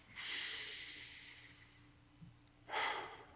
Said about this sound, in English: A deep breath in and a big exhale. One more time. Long, slow, deep, rich breath.